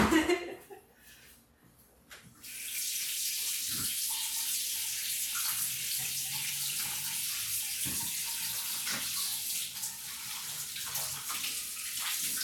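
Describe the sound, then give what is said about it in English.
Tap water runs steadily as hands are washed at a sink while cooking. The water starts after a couple of seconds of quieter sound, then holds as a full, even rush to the end. “I gotta wash my hands again.”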